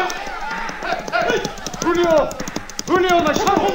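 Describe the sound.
Galloping horse hooves from an old-time radio drama set on a Californian rancho, a rapid clatter running under loud shouting voices as riders give chase.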